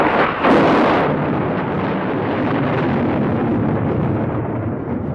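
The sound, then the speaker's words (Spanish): A thunderclap in a storm opens with a sharp, loud crack, then turns into a broad, deep rumble that holds steady for several seconds. “No tardó en oírse un trueno, tras sorprenderme el fulgor de un rayo.”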